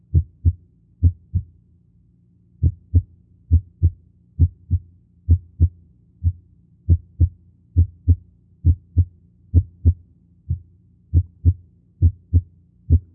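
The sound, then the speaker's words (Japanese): Heart sounds heard through a stethoscope: low, dull thumps beat in an irregular rhythm. Some come in close pairs and others have longer, uneven gaps, so the first and second sounds have no steady pattern. “正確な1音と2音のリズムがありませんね。この点に注意をして聴診をしていただきたいと思います。”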